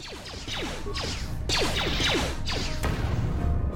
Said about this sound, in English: Two sonic grenades to the face.